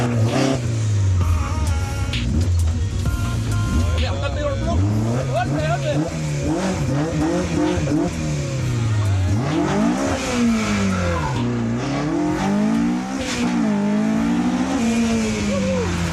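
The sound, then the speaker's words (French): A McLaren sports car accelerates hard through a timed slalom of cones. The loud engine revs rise and fall again and again as it works through the turns. “parce qu'une McLaren, en fait, ça braque pas du tout.”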